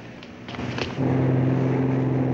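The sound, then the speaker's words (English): A boat's motor as the craft leaves the harbor: a few clattering knocks at first, then a steady, low engine drone that swells and holds at a louder, sustained level. “The boat leaves the harbor and cruises along the coast.”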